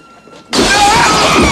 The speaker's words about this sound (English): A body crashes through the window, then shakily attempts to get up.